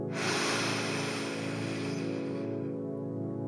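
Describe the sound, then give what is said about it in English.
A deep inhale through the nose during a guided relaxation meditation, a loud, steady rushing breath that holds for about two and a half seconds before tailing off into quiet. “and exhale through the mouth. One more time, even deeper. Inhale”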